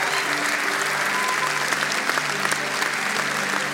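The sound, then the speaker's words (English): Sustained audience applause welcomes a new middle school director joining a church staff. It is a dense, steady clatter of many hands that stays at an even loudness throughout, with no voices standing out. “Give him a hand and welcome him.”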